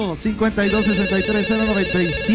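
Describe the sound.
A telephone rings with an incoming call, its electronic ringtone repeating a short pattern of loud, clear tones in a quick, regular rhythm.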